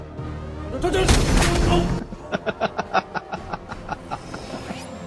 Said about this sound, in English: Why did he shoot him?